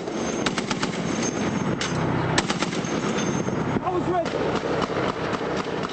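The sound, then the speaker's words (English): Machine gun fire crackles during a moonlit nighttime firefight as armored cavalry tanks and Humvees come under attack. Sharp cracks come in irregular bursts over a constant noisy rumble, and a voice is briefly audible. “U.S. soldiers launched a withering barrage of bullets in return.”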